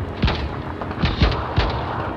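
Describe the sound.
Gunfire in a radio drama battle scene: four heavy, booming shots at uneven intervals over a low continuous rumble, with no talk.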